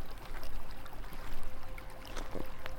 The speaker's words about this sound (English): Do you hear the water from the nearby brook? Walk with me along the brook.